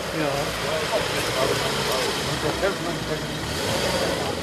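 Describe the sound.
Steady mix of car engines idling and rolling as vehicles are directed into a parking area at the Goldener Löwe inn in Kloster Veßra, a continuous mid-pitched motor hum with no clear breaks.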